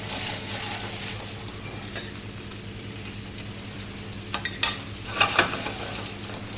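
Meat searing in a hot pan in a professional kitchen: a continuous broad sizzle holds throughout, and a few brief metallic clinks and scrapes of utensils come near the end.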